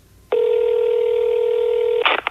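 A phone line tone opens a recorded call with a grandma: one steady, loud electronic tone held for nearly two seconds, ending in a few quick clicks.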